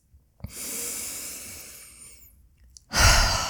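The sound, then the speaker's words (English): A person breathing in and out: one long, soft, airy inhale, a short pause, then a louder exhale at the end, heard alone. “I'm going to pause and breathe in and out”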